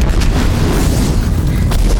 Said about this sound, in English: As the explosion tosses the closest militant vehicle, Four leaps up to the wall with Tris in his arms.